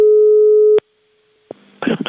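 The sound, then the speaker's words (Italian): A telephone busy tone sounds after a call is hung up: one steady, loud beep lasting under a second, cut off by a click, then a brief hush before a voice starts speaking. “Noi stiamo registrando e lei mi butta giù il telefono.”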